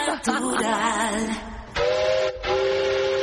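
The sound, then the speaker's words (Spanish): Train whistle sound effect: a loud, sustained, steam-style whistle with a bright, steady, harmonic tone and a hissing edge, cut by one brief break near the end. “Hoy nos daba tiempo a poner el tren. Si quieres, ponlo.”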